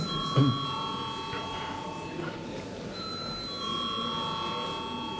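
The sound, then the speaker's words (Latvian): A bell rung in a parliament chamber to call deputies to a vote gives a sustained, steady electric ringing tone that carries on under murmuring voices. “Deputāti pras balsojumu, lūdzu zvanu.”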